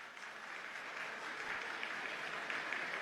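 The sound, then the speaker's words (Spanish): Steady, faint applause from a crowd, a dense even patter that holds at one level for the whole three seconds, with no voices over it. “solo aplausos”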